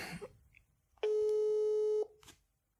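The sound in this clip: Telephone ringing tone heard by the caller while placing a phone call: a single steady beep at one pitch lasting about a second, with faint noise before it and silence after.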